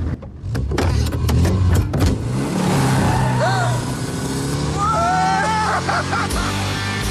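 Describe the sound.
A car engine roars as it is kicked into gear and accelerates, a loud sustained drone with whining tones rising over it, and voices talking through the noise.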